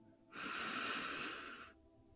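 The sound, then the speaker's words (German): A single long, deep breath taken during a guided breathing exercise, soft and airy, faint and alone. “Atme tief ein”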